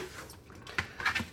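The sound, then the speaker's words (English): A knife chops coarsely through celery in a few crisp, quiet cuts, with short dull taps clustered near the end. “Just coarsely chop the celery.”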